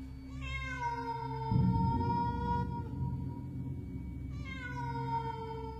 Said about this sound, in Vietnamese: Đâu đó có tiếng con mèo kêu meo meo vang lên.